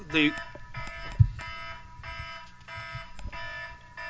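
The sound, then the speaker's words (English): A phone alarm goes off with many repeated electronic beeping bursts in an even rhythm while people talk over it. “we got an alarm here on a phone, but we'll be able to get to that.”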